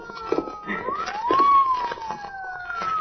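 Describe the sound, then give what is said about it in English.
A police car siren wails over a steady background, its pitch climbing to a peak and then gliding back down in a single long sweep. “listen. Police car.”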